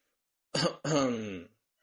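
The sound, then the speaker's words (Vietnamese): A single dry cough with a throat-clearing quality, a short harsh burst followed right away by a longer, rougher voiced rasp, then silence. “con rối ho khan một tiếng hỏi một câu”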